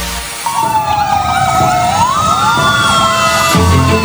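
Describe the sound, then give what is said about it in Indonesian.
An emergency priority vehicle's siren wails loudly with a sweeping, rising and falling pitch over a steady low rumble of road traffic. “Pernah dengar kendaraan prioritas nggak? Kendaraan prioritas adalah kendaraan yang harus didahulukan penggunaannya di jalan raya karena memiliki kepentingan yang mendesak.”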